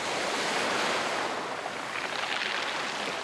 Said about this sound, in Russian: Прибой моря в солнечный день. Все тот же каменистый берег.